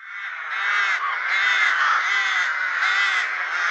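Loud, harsh cawing of many birds at a breeding colony, the rough calls overlapping into a continuous, raucous din with no pauses.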